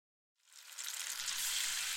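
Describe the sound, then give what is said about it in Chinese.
Fish frying in a pan gives a loud, bright sizzling hiss. It swells quickly after a moment of silence, then holds as a steady crackle with a faint low bubbling underneath. “鱼下锅了，你往后退一点，小心又溅到。”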